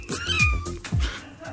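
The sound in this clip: A cat gives two drawn-out meows, each one sliding downward in pitch, loud and clear against a faint background.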